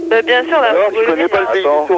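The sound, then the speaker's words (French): A person imitates a turtle dove's cooing with a run of rolling, warbling voiced coos. The pitch wavers up and down, loud and nearly continuous, with brief gaps between phrases. “Oh, celui qui s'est mis à faire la tourterelle, il se calme.”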